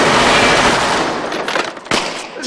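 A small gun fires rapid shots in a loud, dense burst that blurs into continuous crackling, then a sharp single crack near the end.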